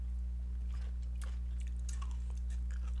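Someone chews sweet, spicy pickles, producing faint, wet crunching and squishy bites over a steady low hum.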